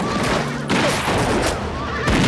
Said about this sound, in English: the others take cover and open fire